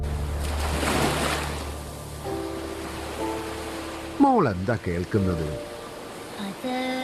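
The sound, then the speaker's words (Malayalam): Sea waves surge and hiss together with wind in a broad, steady wash of surf that eases off, and a few wavering higher calls break in later. “കടലിന്റെ ശബ്ദം. കടലിന്റെ ശബ്ദം എന്ന് പറഞ്ഞാ തിരയുടെ ശബ്ദം. പിന്നെ കാറ്റിന്റെ, കടലിലമ്പത്തിന്റെ. പിന്നെ കടൽ കാക്കയുടെ, അതിന്റെ കരച്ചിലിന്റെ.”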